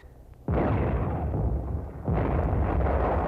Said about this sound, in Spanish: Los franceses han disparado contra el monte Torrero.